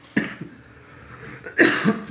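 A few harsh coughs from a person with strained, aching lungs. A couple of short coughs come first, then a louder rough burst near the end, alone with no talk.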